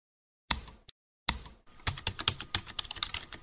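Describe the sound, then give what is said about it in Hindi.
Typing on a computer keyboard: a few sharp, separate key clicks with pauses between them, then a quick, uneven run of many clicks. “अच्छा अब आप कुछ type करें।”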